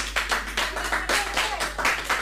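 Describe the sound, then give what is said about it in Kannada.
Audience clapping at a ceremony as the chief guest is invited to give a blessing: a steady, moderately loud wash of many hands with overlapping bursts throughout, no voices standing out. “ಶೀಟಿ ಗಿಟಿ ಹೊಡಿಬೇಡಿ, ಚಪ್ಪಾಳೆ ಚಪ್ಪಾಳೆ.”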